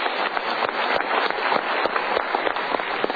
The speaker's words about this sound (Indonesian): Yuk kita berikan tepuk tangan untuk diri sendiri.